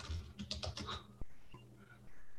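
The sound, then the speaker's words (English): Typing on a computer keyboard while entering a country name: a quick burst of crisp keystrokes in the first second, followed by quieter sound. “You do have to type it out.”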